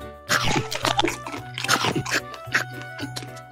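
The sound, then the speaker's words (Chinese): Loud crunching and chewing imitate a caterpillar train taking big bites of apples in a children's story. Several rhythmic, wet, crunchy bites follow one another in quick succession. “毛毛虫列车开始大口吃着苹果。”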